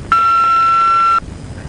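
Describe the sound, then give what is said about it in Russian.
An answering machine beep sounds after the recorded greeting: one steady, unbroken electronic tone, high in pitch and loud. It holds for about a second and then cuts off sharply into quiet. “Здравствуйте, у нас нет дома, оставьте сообщение.”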